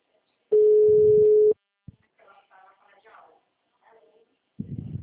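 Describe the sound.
A telephone ringing unanswered gives a single steady one-second ringback tone, followed by faint murmured voices and a short burst of noise at the end.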